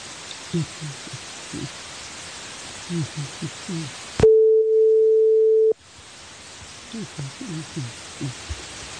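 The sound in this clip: After a phone call is hung up, a single steady, mid-pitched telephone tone sounds for about a second and a half. It breaks in between stretches of muffled talk over constant hiss.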